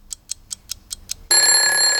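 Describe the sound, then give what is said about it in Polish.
An alarm clock goes off for a wake-up: six short, evenly spaced ticks, then an abrupt, loud, continuous high-pitched ringing that lasts to the end. “Pobudka, muzyczny budzik.”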